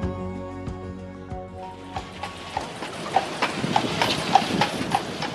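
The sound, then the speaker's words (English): Horse hooves clip-clop as a horse-drawn carriage gives a ride through Central Park in New York. A steady run of crisp, evenly spaced clops builds through the second half. “This is On Point, sound of a carriage ride in New York's Central Park behind us right there.”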